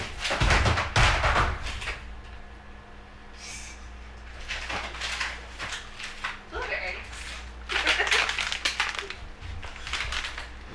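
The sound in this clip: A freezer door opens and frozen packages shift and tumble, giving several bursts of crinkling, knocking and rustling, with people talking throughout.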